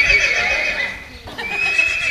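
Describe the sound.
A Franches-Montagnes horse neighing at a horse event: a loud, high, quavering whinny that breaks off briefly midway and then resumes, over steady background noise.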